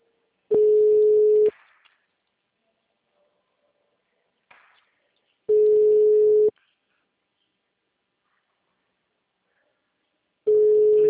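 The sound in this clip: Telephone ringback tone of an unanswered call before voicemail picks up: three steady mid-pitched beeps, each about a second long and spaced roughly five seconds apart with silence between, the last cut off.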